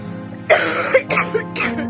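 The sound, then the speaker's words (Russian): A sick girl in bed breaks into a coughing fit: several harsh, breathy coughs come in quick, uneven bursts, loud and raspy, with no talking. “как нарочно в этот момент приступ кашля усилился.”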